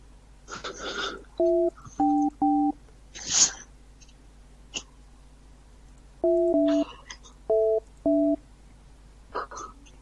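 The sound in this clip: Telephone keypad tones of a phone call being dialed: short steady two-tone beeps in two separate bursts of several presses, with breathy sniffs and snorts between them and no speech.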